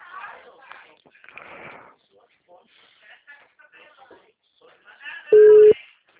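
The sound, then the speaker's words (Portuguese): A telephone tone after a dropped call sounds as one loud, steady beep of even pitch lasting under half a second. It comes near the end, after a faint, low murmur. “a ligação caiu”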